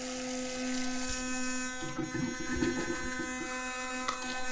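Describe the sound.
Electric toothbrush buzzing: a steady, quiet, high motor whine with a rich hum of overtones, turning rougher and more uneven in the middle as it works, then settling back to an even drone.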